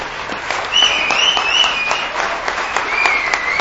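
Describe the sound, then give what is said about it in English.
Audience applause welcoming a speaker to the stage, dense, steady clapping that holds at full strength for the whole stretch. “Please join with me as you put your hands together as you welcome our brother, John Madden Oates.”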